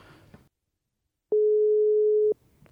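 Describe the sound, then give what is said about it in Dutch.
A single steady electronic tone from a failed phone call sounds for about one second, mid-pitched and unbroken, with brief talk before and after it. “Oh, de oproep mislukt, dat is minder.”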